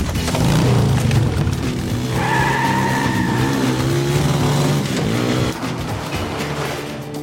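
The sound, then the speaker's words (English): A motor vehicle engine runs loudly and steadily through the whole stretch, revving with shifting engine tones, during a test drive. “Can I take this for a test drive? Yeah, sure. The ignition is here.”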